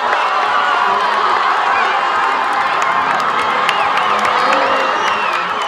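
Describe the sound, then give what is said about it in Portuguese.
Spectators at a women's football match cheer wildly after a goal and spill peacefully onto the pitch, a loud, continuous roar of shouts, whoops and high-pitched cries sustained throughout. “um adepto na linha de fundo tocou a bola que ia para fora e assistiu uma jogadora que acabaria por fazer o golo comemorado de uma forma bem efusiva pelo público que invadiu pacificamente o campo.”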